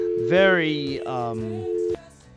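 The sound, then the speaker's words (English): A telephone dial tone on a phone line hums as a steady, low, unchanging note beneath a speaking voice, then cuts off abruptly near the end. “Do we still have Britt on the phone from California? That's what that dial tone was.”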